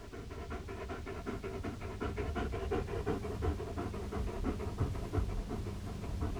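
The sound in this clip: A dog pants rapidly and steadily, with many quick, rhythmic breaths at an even loudness throughout and no voices.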